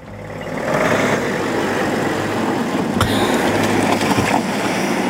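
Cars drive past reporters who had waited for hours as politicians left negotiations. Engine noise swells in after half a second and stays loud and steady, broken by a couple of sharp knocks.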